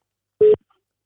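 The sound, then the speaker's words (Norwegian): A single short electronic beep as a telephone call is placed. The steady tone lasts a fraction of a second, alone in silence. “Alright, da ringer jeg.”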